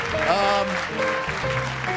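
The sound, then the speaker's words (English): An audience at a live quiz event applauds with steady, sustained clapping while a voice talks over it for about two seconds. “No. Don't applaud. Put your hand up if you want to play the quiz. Don't keep applauding. That gets old.”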